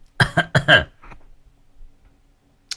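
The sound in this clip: Coughing from a person whose voice has gone hoarse after drinking lots of iced water in hot weather, a quick, loud burst of several hacking coughs, then a faint trailing breath and quiet.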